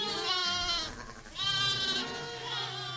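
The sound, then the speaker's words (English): Lambs and ewes bleat as they are moved to a larger pen to join a bigger flock. Several long, loud, overlapping bleats follow one another with brief dips between them. “This morning, some of the lambs and mothers are being moved to a larger pen so they can learn to get along in a larger flock. It makes for some noisy reunions.”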